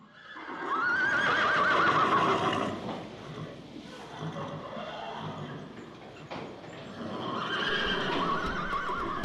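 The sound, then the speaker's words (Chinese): Horses whinny loudly near the start and again near the end, with clip-clopping hooves and horse-drawn carriages on a desert road toward Gaza. “你们瞧，这里有马和马车了。”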